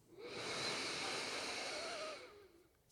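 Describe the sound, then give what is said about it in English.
A deep, slow inhale through the nose during a guided meditation: one long, airy breath that rises quickly, holds steady for about two seconds, then fades away, soft and alone. “Let's take a cleansing breath to open. So full inhale in through the nose.”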